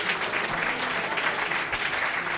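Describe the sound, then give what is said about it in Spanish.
Audience applause for radio programmes tied for an award, with many hands clapping in a dense, even patter that holds at a steady, moderate loudness throughout. “Pues nada, un aplauso para todos ellos.”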